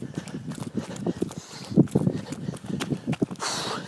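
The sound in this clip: Footsteps of a person running along a path in total darkness, heading past a changing hut toward the jetties: a steady series of dull, rapid thuds that continues throughout at moderate level.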